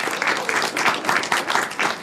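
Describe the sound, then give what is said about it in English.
Audience applause at a speaking event as a speaker is welcomed. Dense clapping stays loud and steady throughout, pulsing slightly in strength. “Greta Bradman, round of applause for Greta”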